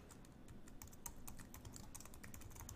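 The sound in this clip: Faint, rapid computer keyboard typing as titles and captions are entered in editing software, with many quick keystrokes in an uneven, continuous patter and no talk.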